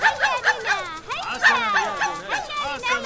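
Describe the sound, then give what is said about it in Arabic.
A small dog barks in rapid, high-pitched yips mixed with whining, many short calls in quick succession with a brief break near the middle. “نعم، من الآن فصاعدا سألعب معك أيها الكلب الصغير.”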